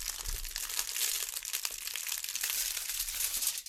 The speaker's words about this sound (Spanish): precalentamos el horno y cubrimos el molde con un papel de aluminio.